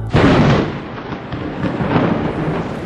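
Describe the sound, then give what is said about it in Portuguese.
Thunder in a storm over a winter pasture: a sudden loud crack followed by deep, sustained rumbling that rolls on for about three seconds, with no voices. “um dia, na invernada, deu uma trovoada,”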